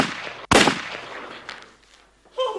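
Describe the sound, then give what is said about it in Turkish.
A single sharp gunshot in an audio drama cracks out loudly and decays into a fading rumble, followed by quieter rustling. “Adam seni vuramadı değil mi çavuşum? Mermi boynumun dibinden geçti.”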